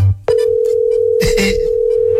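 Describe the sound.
A steady telephone line tone sounds while a call is placed, starting abruptly after a brief low hum and holding loud and even to the end, with a short burst of clicks and rustle partway through.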